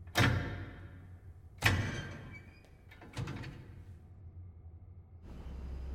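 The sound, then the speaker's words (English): A door being opened, heard as three sharp, separate clunks spaced over a few seconds, then a steady low rushing noise that sets in near the end. “She reaches out and opens the door further.”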